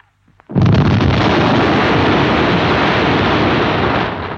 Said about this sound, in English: I love when the punchline of something is a bomb exploding.